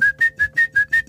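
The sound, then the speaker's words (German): A person whistling in imitation of a tit's song, six quick, evenly spaced high notes repeated in a steady rhythm. “Och, wir haben einen Peter Maffay-Vogel bei uns im Garten. Wenn ich das mal sagen darf, das ist eine Meise.”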